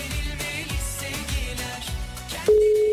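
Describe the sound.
A phone call fails to get through: in the final half second a steady, unbroken telephone tone at a single pitch sounds alone, louder than what came before.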